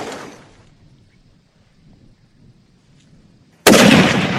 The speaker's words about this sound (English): He got ready to take a shot.